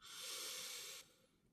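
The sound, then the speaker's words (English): Slow inhale during a guided breathing exercise: a soft, airy breath in that holds steady for about a second, then drops away into a faint trailing hiss. “And breathe again, in”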